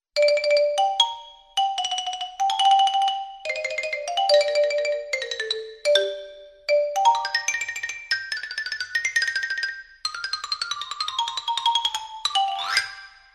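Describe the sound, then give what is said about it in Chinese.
Xylophone played at a concert, its bright struck notes ringing through a lively melody with varied phrases and short gaps, ending in a quick rising run of notes; no voices. “在音乐会上，木琴的声音听起来是这样的。”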